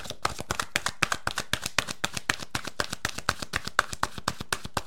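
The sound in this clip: Quiet, steady tapping and slapping of oracle cards being shuffled by hand, many crisp, evenly spaced strikes in a brisk regular rhythm with no talking.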